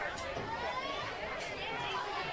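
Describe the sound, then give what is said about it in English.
Crowd murmur and chatter fill the stands at a Michigan Center high school football game against East Jackson, a steady, dense babble of many voices with no single voice standing out. “Nice crowd here at Michigan Center tonight. Look at all those cheerleaders out there.”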